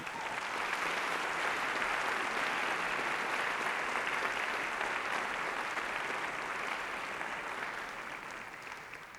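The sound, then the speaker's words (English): Concert audience applause welcoming a harp performer at the start of an evening concert: a full, steady wash of clapping from a crowd that holds evenly, then gradually fades toward the end. “Make her welcome, Carol Thompson from Bethlehem, Pennsylvania.”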